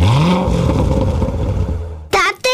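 Polaris off-road vehicle engine revving: a quick rev climbs in pitch, then settles into a loud, steady, rough roar before cutting off near the end, followed by a short burst.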